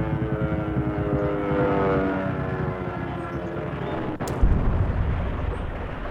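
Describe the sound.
A German light bomber crashing in a valley: a loud, steady rumbling drone, then a sharp crack followed by a heavy thud near the end, with the rumble continuing afterward.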